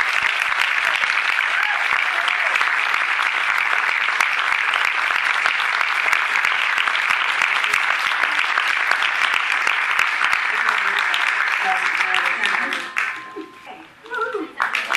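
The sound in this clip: Sustained audience applause welcomes actress Kelly McGillis as a guest at a Q&A event. The clapping holds dense and loud for about twelve seconds, then thins and tapers off.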